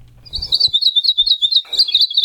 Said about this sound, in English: Hawaii Akepa are an endangered Hawaiian honey creeper that are found only on the Big Island.